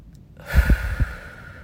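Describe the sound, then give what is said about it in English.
A single deep breath drawn in during a breathing exercise, lasting about a second. It is an airy, rushing inhale with a few soft low thumps and a faint tonal edge, and no talking. “We're going to take a deep breath in. Hold it.”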